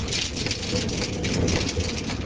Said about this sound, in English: The water rushing from the mill race drives the turbine blades, which engage the wooden shafts and gears, which turn the 1,000-pound millstones